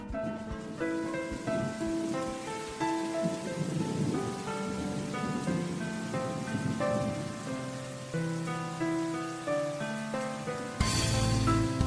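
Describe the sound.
Rain falling in a steady, continuous hiss and patter, accompanied by soft melodic music with sustained tones, ending in a sudden louder wash of sound.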